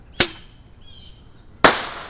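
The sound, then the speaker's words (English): Bottle rocket fireworks give two sharp, loud cracks about a second and a half apart, with a faint, thin whistling hiss in between. “Let's light another one. I do love bottle rockets.”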